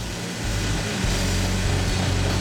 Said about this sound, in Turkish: İşte bu parlatma taşı. Biraz bunun üzerine sürüyorum.